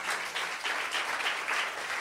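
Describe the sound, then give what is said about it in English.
Steady applause from an audience, a dense, even patter of many hands clapping that runs through the whole clip at moderate level with no voices. “Applaud that.”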